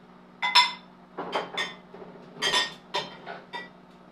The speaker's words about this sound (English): The old church plates. Ah, the old church bowls.